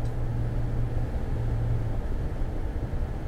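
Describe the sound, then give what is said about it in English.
Inside a moving car on snow-covered, slightly icy roads: a constant low rumble of road and engine noise with a steady hiss, even in level throughout. “I'm exercising some faith right now because I'm driving, doing a little mobile podcast, and the roads are covered with snow and a little icy.”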